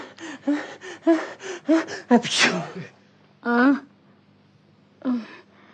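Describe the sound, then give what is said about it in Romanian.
A person sneezes once, sharp and breathy, right after a stretch of talk. Brief voiced sounds follow in the quiet that comes after. “Îmi vine să strănut.”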